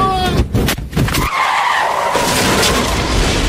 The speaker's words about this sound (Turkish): 286 kilometre hızla giden Tesla'nın arka lastiği patladı. Araç kontrolden çıktı.